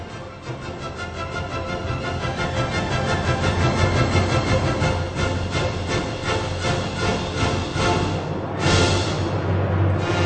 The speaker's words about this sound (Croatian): Najprije ste čuli muziku, a onda aplauz kao reakciju na muziku, što za izvođača predstavlja nagradu.